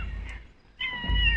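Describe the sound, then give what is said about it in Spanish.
A cat meows once as it approaches at the sound of food, a short, fairly high-pitched cry over a low rumbling background. “ahora se acerca el gato”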